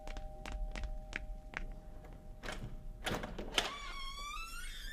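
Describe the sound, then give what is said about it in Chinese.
A door being opened at home around dinnertime: a few sharp clunks and thumps, then a thin, squeaky tonal whine near the end, with no voices. “开门去。”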